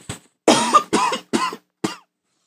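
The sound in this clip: A person coughs during a talk: one faint cough, then four harsh, loud coughs at a fairly even pace. Short silences separate them, and the last cough is shorter.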